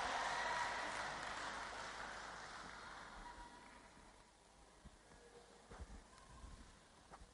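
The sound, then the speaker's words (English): Audience applause welcomes a speaker at a church gathering for testimonies. A broad wash of clapping starts strong and fades steadily over several seconds, leaving a few faint scattered sounds at the end. “Put your hands together as we welcome Michael Moore.”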